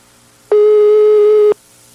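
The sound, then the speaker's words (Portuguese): A telephone ringback tone plays on an outgoing call: one steady, loud, mid-pitched beep about a second long that starts and stops abruptly over faint background hiss. “Ele tá ligando aí? Oi, tá chamando, tá chamando.”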